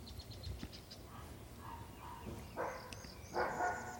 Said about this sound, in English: There's a dog barking, probably at a squirrel, hopefully at a squirrel. There's another dog barking.